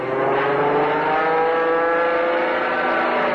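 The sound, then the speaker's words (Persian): Engine drone of a military truck: a steady, loud, even hum with a buzzing tone that holds without a break. “دادشاه و ایسا نیروهای نظامی رو میبینن که از کامیون پیاده میشه”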